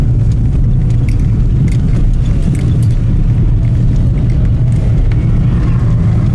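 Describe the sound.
Loud, constant engine and road rumble from a car driving to an artillery position near the front line, with light rattling and jangling inside the vehicle throughout.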